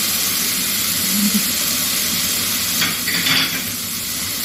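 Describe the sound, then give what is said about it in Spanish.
Salmon sizzles as it is seared on one side in a hot pan, a steady broad hiss with a few brief scrapes of cookware in the middle. “Lo damos vuelta porque simplemente lo vamos a marcar y después lo vamos a llevar al horno para que se cocine bien.”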